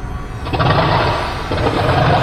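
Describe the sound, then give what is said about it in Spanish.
An aircraft engine sputters and falters in flight, a rough, continuous low roar with uneven surges and dips in strength, with no voices. “Una vez más, el motor falló.”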